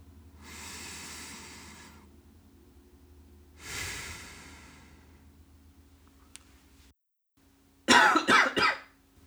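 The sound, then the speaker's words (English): Slow breathing in and out through the nostrils during eyes-closed meditation: two soft, drawn-out airy breaths separated by quiet, then a few sharper, louder nasal bursts near the end. “can feel my breath going all the way up my nostrils. The sensation of it entering and going up and then exhaling.”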